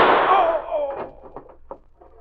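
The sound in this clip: A single gunshot from a radio drama shootout opens with a loud, sharp crack that rings and decays over about a second, followed by a few faint knocks.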